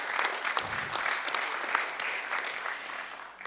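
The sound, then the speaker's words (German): Audience applause as a guest is welcomed to the front at a care foundation event: steady, fairly soft clapping from many hands that continues evenly for the whole stretch, tapering slightly at the end. “Applaus”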